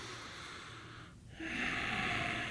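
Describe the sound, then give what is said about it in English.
A person drawing a breath of air: steady airy breath noise, a brief dip near the middle, then a louder, fuller rush of air that holds to the end. No one talks. “That was not a nutritious breath of air. Take another breath.”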